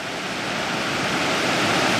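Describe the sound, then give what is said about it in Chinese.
Steady roar of a waterfall cascading down the escarpment edge of the Yunnan-Guizhou Plateau into the Guangxi basin. The water noise is a dense, even rush with no breaks and no voices. “这样呢，在这里就形成了这个大量的这一个瀑布群。”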